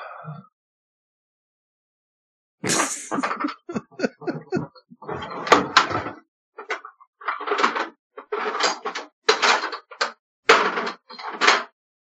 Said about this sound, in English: Checking the same drawer more than once, thinking there might be something in there that wasn't there the first time. No, I have many drawers. This one.